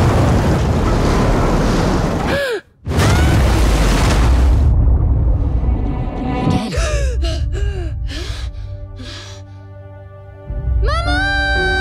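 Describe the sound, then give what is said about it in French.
Rough, stormy sea waves roar and surge in a dense, loud wash of surf and gusting wind, broken by a brief drop partway through, with music rising near the end. “La mer est démontée.”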